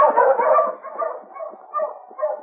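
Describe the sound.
Sled dogs bark and yip on a snowy trail at dusk in a few loud, overlapping bursts that come in uneven rhythm, with no talk over them.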